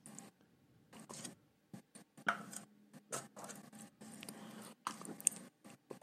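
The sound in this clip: Chewing of pineapple and orange Airheads candy: many soft, irregular sticky squishes and small crunches, quiet, with short pauses between bursts.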